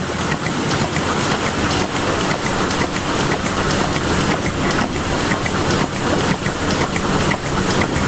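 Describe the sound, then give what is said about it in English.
Pulsator in a milking parlour producing loud, continuous mechanical hissing with a dense, rapid ticking texture that stays even throughout. “He's at the Pulsator in a milking parlour.”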